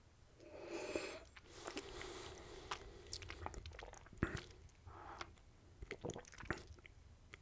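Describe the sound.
Sipping and swishing Four Roses bourbon around the mouth: quiet wet squishing and smacking sounds with scattered soft clicks and breaths.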